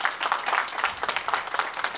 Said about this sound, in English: We can give the Lord another hand clap of praise.